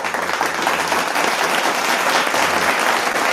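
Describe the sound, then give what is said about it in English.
A round of applause sends off a departing guest on a talk show, dense and steady clapping that holds at an even, fairly loud level for a little over three seconds. “As we see Doc out, let me go ahead and give him his round of applause.”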